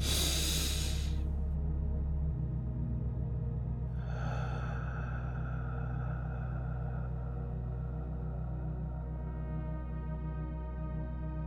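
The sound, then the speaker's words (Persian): A deep breath drawn in through the nose, then a pause and a long, slow, airy exhale, all over a steady low musical drone. “نفس عمیق از بینی به شکلی که ششهاتون کاملا پر بشه. دو ثانیه صبر میکنید و بعد آروم بازدم رو در 7 شماره انجام میدید.”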